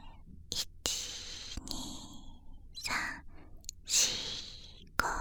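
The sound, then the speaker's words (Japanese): Slow breaths in and out during a breathing exercise, a soft airy rush of air with a few gentle sigh-like swells and faint clicks between them. “息を吸って、1、2、3、吐いて、”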